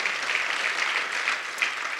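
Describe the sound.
An audience claps steadily through a religious service, a dense and even patter of many hands with no pauses.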